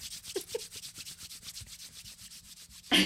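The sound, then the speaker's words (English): Palms rubbed together while working in a skin product, a steady, rhythmic swishing of many quick strokes that ends with a louder burst. “And then you can rub your palms together. That's my favorite.”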